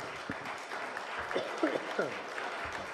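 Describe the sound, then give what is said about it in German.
Faint audience applause after a story reading, a soft continuous patter of clapping with voices audible over it. “Dankeschön. Applaus”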